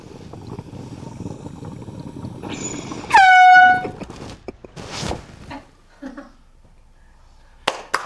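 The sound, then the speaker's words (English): A single loud air horn blast sounds as a steady, piercing tone for just under a second, rising suddenly out of low background noise. A few softer clicks and rustles follow afterward. “I might accidentally try to hit this air horn and blow this dab rig.”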